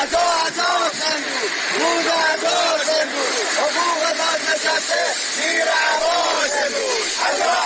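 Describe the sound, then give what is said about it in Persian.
Retired social security pensioners chant slogans at a protest outside the Khuzestan social security office in Ahvaz, Iran. Many voices shout loud, rhythmic, repeated phrases together without a break. “از بازنشستگان تامین اجتماعی در اهواز روز یکشنبه در اعتراض به عدم رسیدگی به مطالباتشان در برابر اداره کل تامین اجتماعی خوزستان تجمع کردند و شعارهایی از جمله حقوق بازنشسته زیر عباس امروز سر دادند.”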